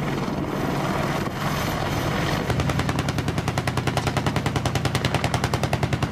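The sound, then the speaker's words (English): Bursts of automatic gunfire from an Apache helicopter's single-barrel 30 cal gun: after a noisy rumbling opening, many sharp shots follow at a rapid, steady rhythm, loud and alone. “That's actually the 30 cal off the Apache. It fires like, it's one barrel. It's not a Gatling gun style. It's one barrel.”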